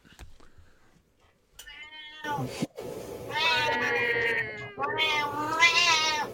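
Cats fighting, with loud, drawn-out yowls and caterwauling wails that rise and waver in pitch, several long cries in close succession.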